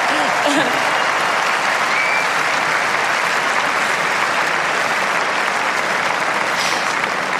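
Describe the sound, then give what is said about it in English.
Crowd applause at Roland Garros tennis after a player wins a quarter-final, sustained and uniform clapping that holds at a steady level from start to finish. “Mesdames et messieurs, merci d'applaudir. Jasmine Paolini, qualifiée pour les demi-finales de Roland Garros.”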